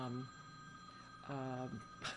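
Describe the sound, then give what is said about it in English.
A phone rings with steady, faint electronic tones that run under a person talking. “I don't know if that's my phone, but I'm going to ignore it.”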